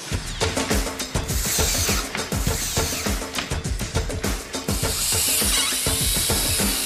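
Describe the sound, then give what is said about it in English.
Power drill driving screws into 2x4 wooden supports for a skate ramp, two screws per stud: a loud, dense stream of mechanical whirring and rapid ratcheting clicks, continuous throughout. “using two screws per stud, screw that baby in.”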